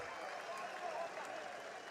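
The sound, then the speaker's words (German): Faint, continuous crowd applause comes from the stands at a club match as fans of the blue-and-white side clap in a steady, even wash of noise without clear peaks. “Und jetzt sehen wir hier also gerade nochmal den Applaus in Richtung der Ränge. Und die Stimmung also hier ordentlich. Da gibt es nochmal Applaus von den Blau-Weißen.”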